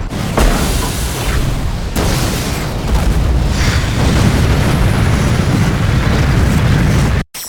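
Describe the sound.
Explosion of an arm pack blasted to propel an escape: a loud, sustained, rumbling roar with a few sharper bursts near the start, cutting off abruptly at the end.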